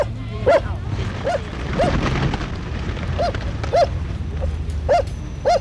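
Dog barking in a series of sharp, high yips spaced irregularly over low background rumble, several clustered near the start and more toward the end.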